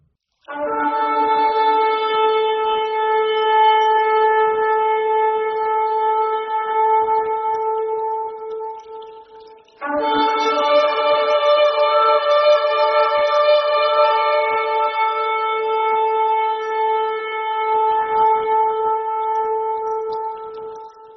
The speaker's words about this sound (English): It's the shofar, or the ram's horn, and it sounds something like this.